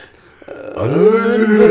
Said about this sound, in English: You just yawning?